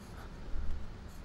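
Pen drawing on paper: a brief, faint scratchy rasp of strokes, with a slightly louder burst in the middle.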